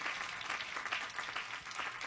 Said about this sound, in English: You gotta clap everybody and they in here.